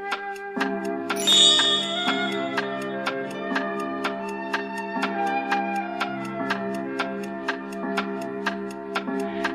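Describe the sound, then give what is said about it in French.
A large mechanical clock strikes ten o'clock, with bright ringing chimes swelling over a fast, even ticking. Many regular ticks run through the whole clip as the chime rings out and fades. “Dix heures sonnèrent, et on aperçut de nouveau le vieillard avec sa tablette en pierre.”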